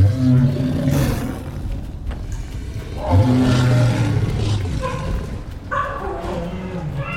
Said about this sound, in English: I didn't know cheetahs could make a noise like that.